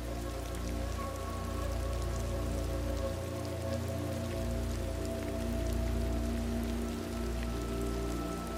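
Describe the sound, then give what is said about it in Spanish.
Gentle rain falls steadily in a soft, even patter with no voices over it. “Quizás tumbarte y descansar mientras escuchas el suave murmullo de la lluvia que te envuelve.”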